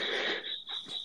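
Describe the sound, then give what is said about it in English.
Crickets chirp in the background, a steady, thin, high-pitched trill that flutters slightly and stays faint throughout. “Well, it's hard to listen podcast. When there's the crickets in the background.”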